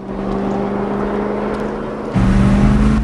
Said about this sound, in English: Jim spins the 4x4 round and speeds back the way they came, leaving Estridge at the side of the road.